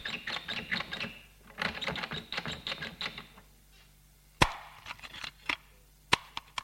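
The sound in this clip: A key rattles and clicks in the lock of a safe hidden in a wall behind a painting. Dense bursts of rapid metallic clicking come first, then a few sharp, isolated clicks separated by quiet gaps.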